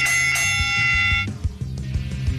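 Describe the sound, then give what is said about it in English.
A bell rung by hand, two bright, loud strikes in quick succession that ring with a sustained metallic tone before lower, rhythmic knocking sounds take over. “Ring the bell. I ring it.”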